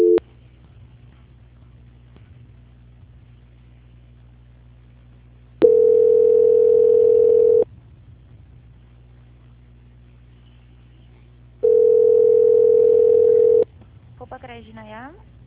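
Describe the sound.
A telephone call-transfer tone sounds as two long, steady mid-pitched beeps, each about two seconds, with a quiet line hiss between them. A voice starts briefly right at the end.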